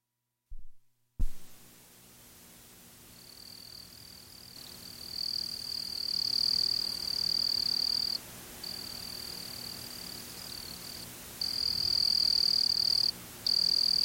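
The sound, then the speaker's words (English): A Springfield cricket sings a steady, high-pitched trill that runs almost continuously with a few short breaks, over a faint low background. A brief thump sounds at the very start. “And that is the sound of the Springfield cricket.”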